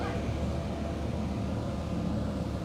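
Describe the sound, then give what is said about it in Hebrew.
A street-cleaning vehicle gives off a steady mechanical rumble mixed with broad brushing hiss, loud and continuous with no breaks or voices. “איזה כיף, לנשום בזמן שמנקים לך את הרחוב. איזה כיף שההפרעות הפכו לתזכורת לנשימות.”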